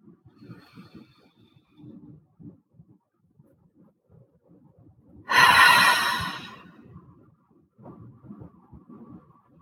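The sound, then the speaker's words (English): A deep cleansing breath: one loud, breathy rush of air lasting about a second stands out among faint, low, soft sounds before and after it. “join me now in 3 deep cleansing breaths”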